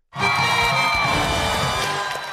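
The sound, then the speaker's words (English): A cheering crowd used as a congratulations sound drop bursts in abruptly, a loud sustained wash of whoops and shouts that holds steady and eases off slightly at the end. “But we need to have like a, ooh, congratulations fucking sound drop. Because let's just say that this is the congratulations sound drop for this episode.”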